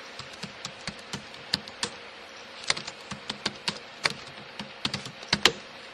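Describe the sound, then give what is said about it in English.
Typing a file name on a computer keyboard: many quick, irregular key clicks, some sharper than others, heard alone without talk. “I'm going to tab. File name. I will type binomial with fractions.”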